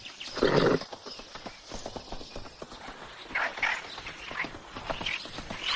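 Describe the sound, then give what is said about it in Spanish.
Hooves of a ridden horse clip-clopping across open countryside, many steady hoof falls at moderate loudness, with a louder burst near the start. “sigue cabalgando mientras sus amigos lo esperan.”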